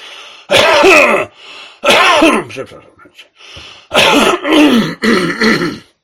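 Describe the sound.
Throat clearing and coughing in a series of about five rough, harsh bursts, some close together and some separated by short pauses, with no words spoken.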